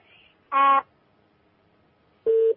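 Telephone call signal: two short, buzzy electronic beeps, each lasting about a quarter second, separated by a long pause. The second beep sits lower in pitch than the first.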